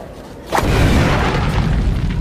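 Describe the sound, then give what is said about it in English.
A comic explosive boom stands in for a robot opponent's impossibly fast tennis serve in a comedy sketch. A sudden loud blast is followed by a sustained, roaring rumble that lasts to the end. “Now that is a fast serve. The speed gun says it was 600 miles an hour.”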